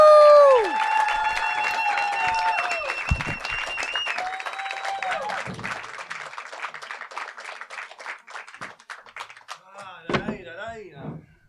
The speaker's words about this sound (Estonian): Aga nüüd palun üks suur aplaus.